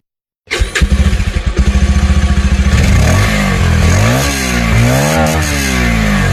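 A motorcycle engine starts with a rapid, loud chugging crank, settles into a rough idle, then revs up and down in a few rising and falling swells, heard alone without voices.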